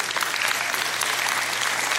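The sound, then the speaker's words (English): Audience applause during a talk about a girl's tenth birthday: a continuous, even wash of clapping, steady in loudness for two seconds with no voices over it. “you don't have to clap for her, that's really for me and my wife.”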